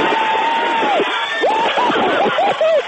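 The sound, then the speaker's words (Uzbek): NASA scientists at a California laboratory cheer with loud shouts and rising whoops at the Curiosity rover's Mars landing. Excited voices overlap in a dense, jubilant burst. “Kaliforniyadagi NASA laboratoriyasida bo'lgan mutaxassis va olimlar Mars sayyorasidan mujdani quvonchdan qichqiriq va qarsaklar bilan kutib olishdi.”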